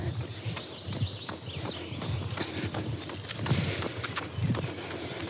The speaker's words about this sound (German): Jetzt werde ich von einem Jogger überholt.